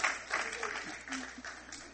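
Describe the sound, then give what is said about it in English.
Congregational clapping during a church service, quiet bursts of hand claps recurring at an uneven pace beneath a voice that carries over them. “Clap of praise again for the blood still working.”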